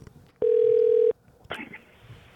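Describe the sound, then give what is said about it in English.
A telephone call is being dialed through Google Voice at a studio. One steady, even telephone tone sounds for under a second and is followed by a brief burst of sound. “Sorry for the weird number. I actually called you from the Google Voice thing here at the studio.”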